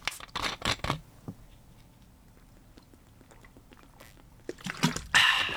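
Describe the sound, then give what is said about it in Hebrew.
A bottle of Schweppes lemon-lime carbonated drink being opened: clicks and rustles of handling at first, then near the end a sudden, loud, fizzing hiss as the bottle is opened. “משיקים כאן את סדרת המשקאות המוגזת והחדשה של שוופס עם הטעמים למון ליים ולמון ליים זירו. זה משקה צעיר, מרענן. בכל פעם שאתם טיפה חלושס, אתם נותנים שלוק ואז האנרגיה חוזרת. בואו נפתח בקבוק.”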